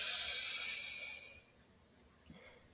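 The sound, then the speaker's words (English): A deep breath drawn in through the mouth: a long airy hiss lasting over a second that tapers off into near quiet, followed by one brief faint sound. “Just do another breath into the mouth and notice like where that breath goes.”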